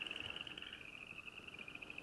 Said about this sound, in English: That really sounds like running your finger over a comb. So that's the southeastern chorus frog. And actually, the subspecies we have here is the upland chorus frog.